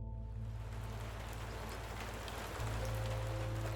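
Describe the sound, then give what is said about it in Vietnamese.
Cold drizzle falls at night in a city, a steady hiss of fine rain that runs unbroken throughout over low, sustained humming tones, growing slightly louder during the last second or so. “Đêm thành phố có vài cơn mưa phùn lạnh, gió lọt qua khe cửa sổ cũ mang theo mùi bụi đường thoang thoảng.”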